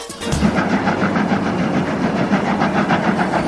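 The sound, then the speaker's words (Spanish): A locomotive sound effect chugs with a loud, regular chuffing rhythm of many evenly spaced pulses over a low engine rumble, keeping a steady pace throughout. “La locomotora sigue avanzando. Segunda parada.”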